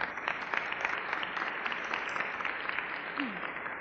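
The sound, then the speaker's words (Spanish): Audience applause at the close of a talk, a dense, steady clapping that holds at an even level for about four seconds with no voices over it. “¿Qué tal si le brindamos un fuerte aplauso nuevamente a Andrés?”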